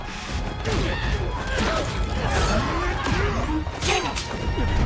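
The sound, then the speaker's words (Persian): Punches and kicks landing in a fight on the upper floor of a palace: a dense, continuous flurry of thuds, whacks and swishes, loud throughout. “با مشت و لگد الفا رو میزنن”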